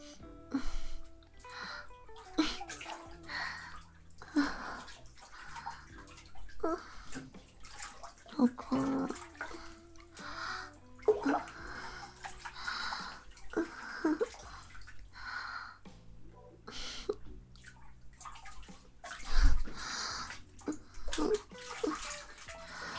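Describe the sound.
Water splashing and sloshing in a bathtub during bathing, irregular bursts of movement and drips rising and falling against a quiet background, with brief louder splashes scattered through.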